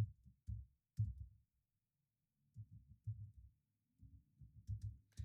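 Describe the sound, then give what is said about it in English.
A message being typed on a computer keyboard: quick clusters of faint, muffled taps arrive in a few short bursts, separated by brief pauses of near silence. “I would simply type in a message that says something like, hi, Lindsay.”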